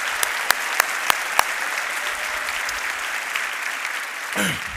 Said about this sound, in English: Let's give all those people out there a big hand, all the people in the military.